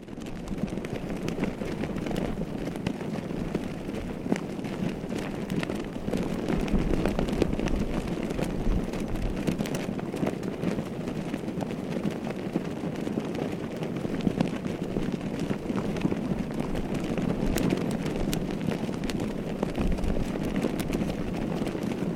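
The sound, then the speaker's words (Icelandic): Bishops' flags flap loudly in a cold, gusting wind on a large flag array at Skálholt during a blustery holiday weekend. A steady, loud rush of wind and flapping cloth runs unbroken the whole way through. “Það lét heldur hátt í fánanum í næðingnum sem gnauðaði þar mest alla verslunarmannahelgina eins og menn geta heyrt.”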